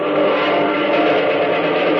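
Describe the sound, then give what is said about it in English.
A steady, loud droning roar of a group of American pursuit planes flying overhead, an unbroken engine hum lasting the whole two seconds. “Planes! Jumping! Jupiter, do those look like... They are, son. American pursuit planes. A whole mess of them.”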